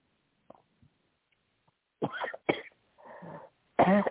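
Coughing from someone whose tea went down the wrong way: a few harsh, breathy coughs in quick bursts, the last one loudest, after some faint small clicks and quiet breaths.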